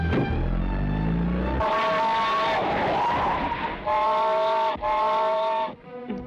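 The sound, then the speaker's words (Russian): A car engine revs loudly as the car drives off, rising through several strong surges with a bright, steady harmonic whine and brief breaks between them. “Три специалиста садятся в машину.”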